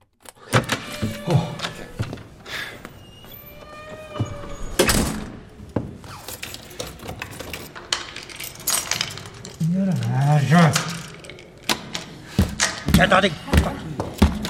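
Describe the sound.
Someone struggles with a stuck door lock, making many sharp metallic rattles, clicks and jangling key-like clinks, with heavier thumps and knocks against the door in an uneven, busy pattern, while a voice is heard among the noises.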